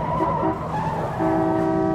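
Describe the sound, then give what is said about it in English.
Tires squeal as a badly driven ride-share car skids. The high screech is loud and sustained, briefly wavers near the middle, then holds a steady pitch, with no voices. “He's trying to drive me all the way to Mighty Mila's hideout. Also, he's a terrible driver.”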